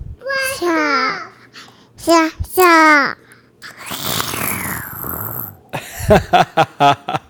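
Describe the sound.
A young child imitates a rocket launch with her voice, making a long, noisy, breathy whoosh for blast-off. Before it come high babbling vocal sounds, and after it a few short voiced bursts.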